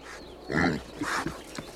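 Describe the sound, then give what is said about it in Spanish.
Piglet grunting: a few short, rough grunts, moderately loud and alone, with no talk. “el cerdito.”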